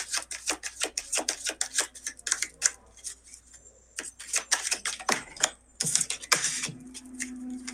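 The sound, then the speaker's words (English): Tarot cards being shuffled by hand, a steady run of quick, crisp clicking and flicking bursts with short pauses, moderately loud, with no talk. “so I'm shuffling the cards for Shelby Eastwood”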